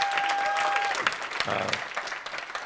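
Audience applause congratulating Dr. Leland Jones, dense steady clapping that gradually thins into looser, scattered claps toward the end.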